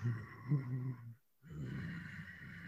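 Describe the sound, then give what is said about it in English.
Ujjayi yoga breathing through a constricted throat: two long, faint, hissing breaths with a short silent pause between them. “on the exhale or on the inhale, constraining the back of the throat to do an Ujjayi breath, which sounds like this.”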